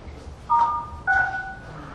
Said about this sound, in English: To unmute yourself, press *6.